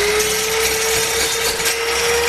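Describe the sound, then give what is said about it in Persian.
An electric woodworking machine cuts wood in a carpentry shop in Qala-i-Naw, Badghis, giving a loud, steady whine over constant rough noise with no breaks. “عبدالباقی در دوکان نجاریش مصروف برش و چوب توسط دستگاه برقی است.”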